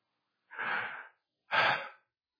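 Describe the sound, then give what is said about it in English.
A preacher takes a deep breath before a difficult Bible verse. Two breathy, noisy bursts, each about half a second long and fairly soft, are separated by a short pause. “Deep breath.”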